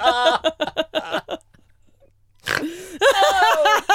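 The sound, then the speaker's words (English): A person snorts while laughing: choppy bursts of laughter, a short quiet gap, then one sharp, nasal, pig-like snort, followed by more laughing voice. “Oh, no, you made me snort.”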